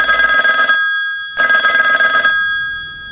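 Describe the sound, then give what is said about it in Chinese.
Electronic telephone ringing in a Hong Kong university's student affairs office: two bright, loud trilling bursts separated by a short gap, with nothing else heard. “宁静祥和的大学校园一片郁郁葱葱，香港大学学生管理处的电话响起”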